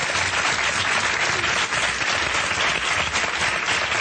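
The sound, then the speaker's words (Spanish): Audience applause for four guests on a comedy quiz show: dense, steady clapping from a large crowd, loud and continuous for the full four seconds with no talk over it. “un aplauso para los cuatro”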